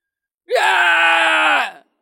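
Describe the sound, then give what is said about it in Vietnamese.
A single scream, a sustained voiced cry lasting over a second at a steady pitch that trails off at the end, heard alone against silence. “Đột nhiên có tiếng hét truyền tới”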